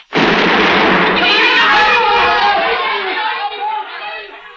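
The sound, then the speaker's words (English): A grenade explodes inside a boat launch with a sudden, loud blast, then a broad roaring rumble that slowly fades over about four seconds. “No sooner were we on deck than a mean-looking Mongol I hadn't noticed before, high up in the shrouds, bit off the end of a grenade and threw it smack into our launch.”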